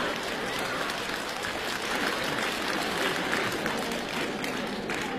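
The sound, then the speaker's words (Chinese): Audience applause at a comedy stage show: a dense, steady round of clapping from a crowd that holds at an even, fairly loud level for about five seconds, with no talk over it. “谢谢，掌声鼓励一下。”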